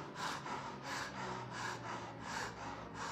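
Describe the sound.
A voice imitates heavy panting, mimicking a breathless patient with a bloated belly who is about to faint: many quick, rhythmic, breathy gasps in a steady cycle, loud and alone without other talk.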